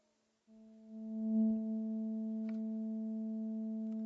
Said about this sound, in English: So there's 220 cycles happening per second.